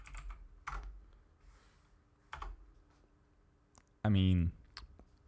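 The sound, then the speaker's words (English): Someone types a message into a chat on a computer keyboard, making a few scattered, faint keystroke clicks, followed by a short spoken sound. “Can you write it in the chat? Yes. I will write it right now.”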